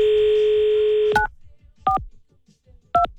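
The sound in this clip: A telephone call being dialed: a steady dial tone holds for about a second, then stops for three separate touch-tone keypresses, each a short two-pitch beep spaced apart.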